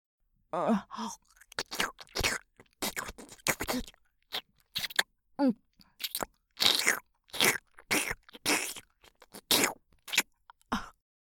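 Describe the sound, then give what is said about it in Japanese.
Close ASMR mouth sounds of biting and chewing on an ear: many short, wet, crunchy nibbles and smacks in an irregular rhythm, separated by brief pauses. “兄さんの耳はとてもおいしいよ。程よい弾力がとても心地いいんだ。まだまだ味わい足りないな。”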